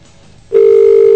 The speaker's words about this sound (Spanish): Otro tono. Otro tono telefónico.